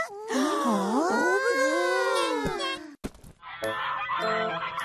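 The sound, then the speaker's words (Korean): Nasal, drawn-out duck quacks with sliding, wavering pitch fill the first three seconds, followed by a shorter buzzy honking stretch. “꽥, 꽥. 꽥, 꽥. 오리 이야기 같이 들어봐.”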